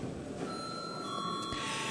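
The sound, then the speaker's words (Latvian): An electric bell is rung in a parliament chamber to call members to a vote. It comes through as a faint, steady ringing tone that lasts throughout under broad, even hiss. “tad lūdzu zvanu”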